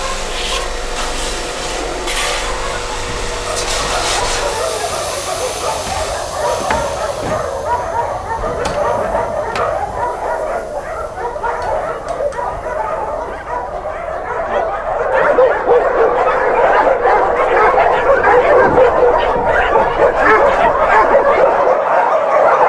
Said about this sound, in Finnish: Koirien haukku pauhaa kiviseiniä vasten.